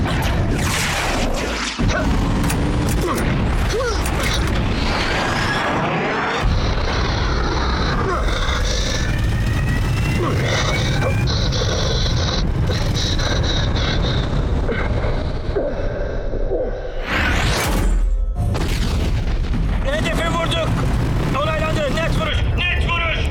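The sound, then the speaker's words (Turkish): A bomb dropped on a locked target explodes amid a loud, dense battle mix of deep booms and roaring engines, with voices talking over it throughout. “Hedef belirlendi, bomba atıldı.”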